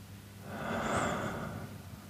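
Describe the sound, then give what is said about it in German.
A slow, deep breath during a meditation exercise: one soft, airy swell that builds and fades over about two seconds. It is faint and heard alone, with no talk. “Na, ich mache das jetzt einfach mal, kannst du auch gerne mitmachen. Einatmen und wieder ausatmen.”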